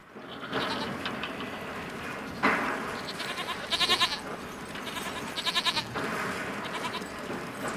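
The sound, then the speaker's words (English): Goats in a grazing herd bleat after being disturbed, giving a few short bursts of wavering, nasal bleats over a steady background rustle, with no voices. “disturbing a herd of goats that are grazing beside him.”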